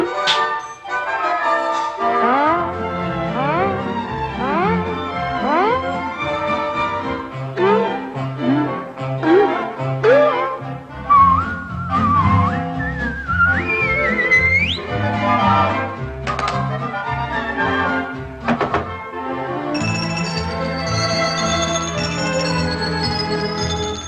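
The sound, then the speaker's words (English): Bright whistling from a song in an animated film soundtrack carries a wavering, gliding melody over loud, continuous orchestral music with steady accompaniment. “give a little whistle, you give a little whistle”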